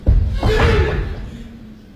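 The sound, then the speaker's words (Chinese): A room door is pushed open, a heavy low thump at the start followed by a drawn-out rumbling tail that fades away. “市长大人带着警察局长也瑟瑟发抖，小心翼翼地推开门走进房间。”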